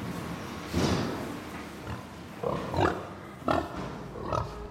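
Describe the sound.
Pigs grunting, several low, rough grunts in irregular bursts, fairly faint, with quieter snuffling between them.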